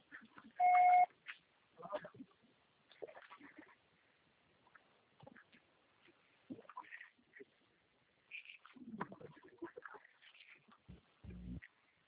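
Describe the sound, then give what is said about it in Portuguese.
A Brazilian phone voicemail system sounds a short, steady electronic beep after the recorded message. Faint, muffled sounds and voices are scattered through the quiet line afterward. “Grave o seu recado. Você só será tarifado após o sinal.”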